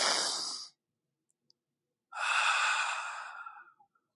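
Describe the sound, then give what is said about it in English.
Deep breaths drawn in, heard alone as breathy rushes of air: a short breath first, then a pause, then a longer, fuller breath that slowly fades. “Take a deep breath in.”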